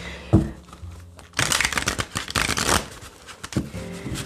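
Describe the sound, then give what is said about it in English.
Tarot cards from a love tarot deck being shuffled and handled. A soft tap leads into a dense burst of papery riffling flutter lasting over a second, followed by another light tap. “We'll get some conversation cards from the Love Tarot first”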